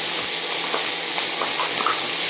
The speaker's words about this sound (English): Okay, our onions are starting to soften. So I'm going to go ahead and add in our mushrooms.